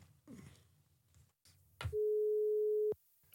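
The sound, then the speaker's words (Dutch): A single steady mid-pitched telephone tone sounds for about one second as a phone call is placed. Faint low noise comes before it. “Even bellen met Harm Beertema.”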